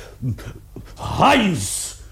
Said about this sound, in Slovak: Prečo je pes na reťazi? Musel som ho uviazať, pane. Nedalo sa nič iné robiť. Stále sa vrhá na drôtený plod a driape ho.